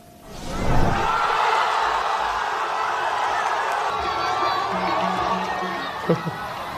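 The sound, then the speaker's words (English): A crowd in Gaza City cheering Egypt's World Cup team while watching a match on giant screens, some people seated on rubble; the roar swells quickly at the start and then holds loud and sustained. “people in Gaza cheered on Egypt's team as their own during their World Cup run, as you see there, even sitting on rubble to watch matches on giant screens in Gaza City.”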